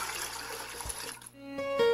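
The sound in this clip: Water is thrown onto an out-of-control trash fire, a rushing, splashing gush that lasts about a second before fading away, followed by a short steady tone.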